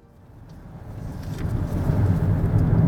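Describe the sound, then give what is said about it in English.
A car drives along Route 12, a steady low road and engine rumble that swells gradually louder over a few seconds, with no voices. “Jane, our friend Amanda, and myself are driving down Route 12.”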